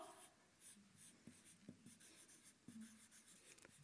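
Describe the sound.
Handwriting with a pen on paper, faint scratching strokes in short, irregular bursts over quiet background noise.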